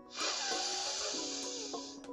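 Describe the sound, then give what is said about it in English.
A deep breath drawn in during a guided breathing exercise: a steady, airy hiss that holds for about two seconds, fairly quiet and with no talk over it. “let's go ahead and take a couple deep breaths. Join me. Breathe in”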